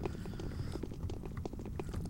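Footsteps of a character walking in a video game: a steady run of soft, evenly spaced thuds at a relaxed walking pace, with light scuffing between steps.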